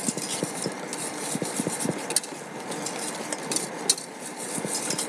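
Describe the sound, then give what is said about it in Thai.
A mixture is stirred in a bowl in one direction until it turns to gel. The utensil makes a steady run of many soft scrapes and light taps. “ควรจะคนไปในทิศทางเดียวกันด้วยใช่ไหมคะ การผสมก็คือไปในทิศทางเดียวกัน”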